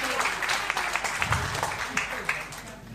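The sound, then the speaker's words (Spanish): Applause from a gathered crowd, dense steady clapping that holds at an even level for about three seconds, with voices talking over it. “un aplauso al David, sí, el David”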